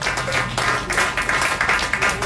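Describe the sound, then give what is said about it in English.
Applause from a group of people, a dense, steady patter of many hands clapping that carries evenly through the whole stretch without pause. “Hey, all applaud.”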